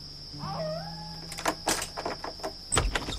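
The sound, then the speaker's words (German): Hard knocks from a weapon's pommel pound on a mission house door as soldiers hunt a fugitive at night. A quick, irregular series of sharp blows rings out over a steady high whine. “schlug mit dem Knauf seiner Waffe gegen die Tür.”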